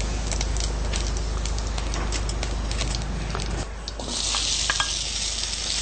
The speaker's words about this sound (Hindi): और जब जीरा आवाज करने लगे, छोंक हो जाए,